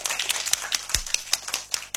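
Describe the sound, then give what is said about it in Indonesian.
Kindergarten children clap together at a radio station in Jayapura, producing a steady, regular run of crisp hand claps that repeats at an even pace throughout. “Tepuk tangan dulu buat RRI Jayapura.”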